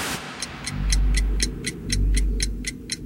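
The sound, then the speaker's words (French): Steady clock ticking, the great clock at the Le Mans racing circuit, with many sharp, evenly spaced ticks running over a low, swelling rumble. “la grande horloge du circuit du Mans affiche désormais 15h.”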